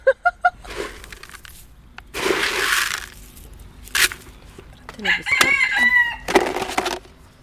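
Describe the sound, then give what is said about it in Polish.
Hens in neighbouring aviaries squabble, with a quick run of sharp clucks at the start followed by bursts of harsh squawking and agitated cackles, loud and irregular. “Tutaj te woliery kurek są bardzo blisko siebie. O tak, to jakaś sąsiedzka wymiana zdań teraz się odbywa. Akurat te nie pałają do siebie miłością.”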